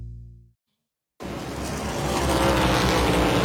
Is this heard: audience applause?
no